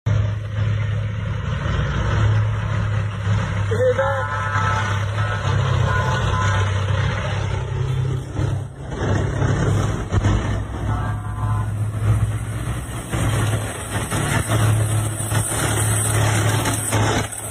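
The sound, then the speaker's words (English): Low engine rumble of military vehicles and Russian tanks rolling in, a steady droning hum that runs throughout with only a brief dip midway; no voices are heard. “But if it makes you feel any better, they're also rolling in Russian tanks.”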